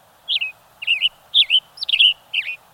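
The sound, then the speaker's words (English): A western tanager sings five short, burry, high-pitched phrases, each a quick slurred chirp, separated by brief even pauses against a quiet background. “The tanager's tune is as sharp as his brightly colored red head. With a yellow body jacketed in black, the western tanager is a flash of bright color in the coniferous forests of the west.”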